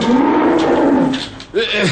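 A cow mooing, loud and low, with one long drawn-out moo followed by a shorter call that bends in pitch.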